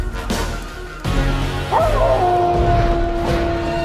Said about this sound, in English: The devilish dog's howls spread across the city like a tidal wave, ripping over roofs and through streets to Delgado and Chloe.